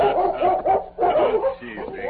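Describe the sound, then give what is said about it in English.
Barking from a large German shepherd circling a horse at a ranch in welcome: a quick run of loud, excited barks and yips with little pause between them. “As Tonto dismounted, the Colonel's dog, a large German shepherd named Chief, circled Scout, barking a welcome.”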